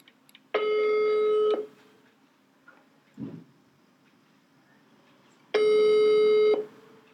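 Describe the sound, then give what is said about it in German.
Ringback tone while placing a phone call: two steady, mid-pitched beeps, each about one second long, separated by roughly four seconds of near silence with a faint noise in between. “Okay, wir rufen jetzt Dominik an.”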